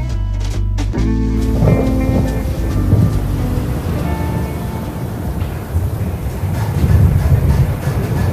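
Thunder from an approaching storm fills the air as a continuous deep, rolling rumble, loud and steady, swelling slightly toward the end.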